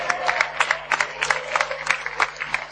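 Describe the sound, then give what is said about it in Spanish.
An audience at a LAN party gathering in Tenerife applauds for the event photographers. The clapping is a steady, moderately loud patter of many crisp claps. “Un aplauso enorme para los fotógrafos que no pueden subir.”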